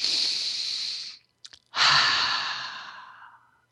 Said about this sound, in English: Let's just take a few deep breaths.